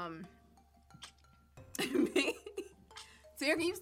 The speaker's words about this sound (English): Corona on the loose? You've been coughing for the last 45 minutes.